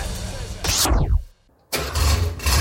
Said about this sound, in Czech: Tohle je zvuk, který nestárne. Nablízkané karoserie, vůně benzínu a automobilové legendy. Klasika na čtyřech kolech, sraz veteránů a youngtimerů v Karolině